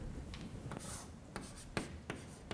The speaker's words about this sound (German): Das schreibe ich mal da hinten hin.